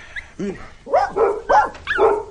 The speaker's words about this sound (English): shut up, you foul dogs!